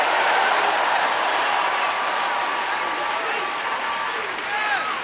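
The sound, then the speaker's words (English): A church audience applauds and shouts praise in dense, continuous clapping mixed with cheering voices. The sound stays steady and loud throughout. “Come on, give the Lord a good shout of praise.”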